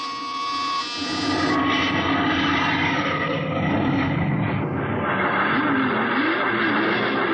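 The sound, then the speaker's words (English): An aircraft takes off with a steady, loud engine roar and a high buzzing whine. A wavering tone drifts through the roar near the end, and no voices are heard. “Clear for takeoff, Charlie? Right. Okay, give him the light.”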